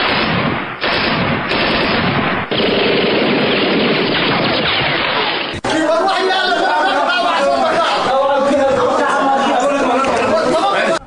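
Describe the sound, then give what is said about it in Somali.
Bursts of gunfire crackle during an attack at the court compound in Mogadishu, loud and nearly continuous, with clattering shots layered over a tumult of voices. “qarta rasaasta ee buuq isdaba socday aad maqleysaan waxay hor dhac u ahayd dhacdadii maxkamadda ka dhacday”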